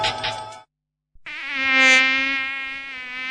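A dengue-carrying mosquito whines in a steady, high-pitched buzz for about two seconds. A short noisy burst and a moment of silence come before it.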